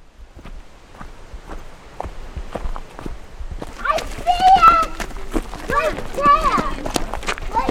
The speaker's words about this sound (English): It's a crisp fall day in the White Mountains of New Hampshire, where I'm out hiking in the wilderness.